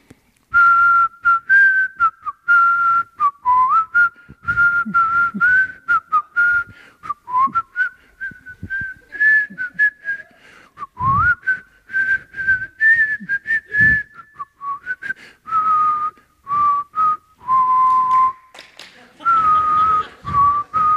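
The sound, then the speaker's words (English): A man whistles a tune while showering in a caravan park shower cubicle. The clear, loud melody runs in many short phrases that rise and fall in pitch throughout. “we were on holidays in Marimbula and he was in his cubicle having a shower and he started whistling”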